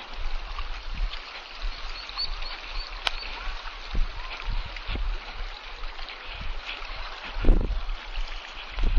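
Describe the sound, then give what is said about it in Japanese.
Flowing water of a stream gives a continuous, even rushing hiss, broken by a few faint knocks. “水の音がいい。”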